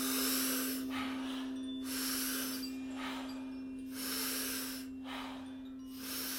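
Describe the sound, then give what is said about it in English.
Breath sounds from a breathing exercise: a big, powerful inhale followed by a soft, unforced exhale, repeated a few times as airy rushes over a faint, steady low hum. “So we're really taking a big power breath and a soft exhale, no force. It'll sound like this.”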